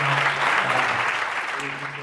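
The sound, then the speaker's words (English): Sustained audience applause at a keynote at CUNY City College, a dense, steady wash of many hands clapping with a faint voice showing through underneath for about two seconds. “I think Gary deserves like a really big round of applause.”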